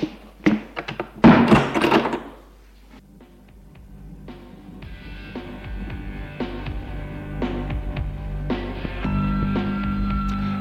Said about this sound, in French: Frédéric ferme la porte